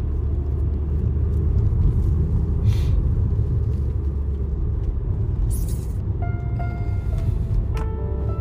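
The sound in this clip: Steady road-traffic rumble on a city street on a Tuesday evening, where food delivery riders speed along; a continuous low roar with a thin tonal engine whine emerging near the end.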